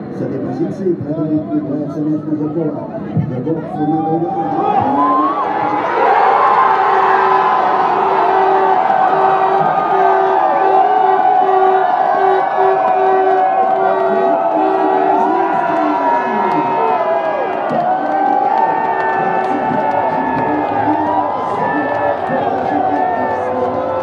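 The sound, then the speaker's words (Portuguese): Football fans at a FanFest cheering Russia's first goal, a crowd's chatter that swells after about five seconds into a loud, sustained roar of shouting and whooping. “Vamos escutar então o áudio que você gravou dos caras comemorando o primeiro gol da Rússia lá no FanFest.”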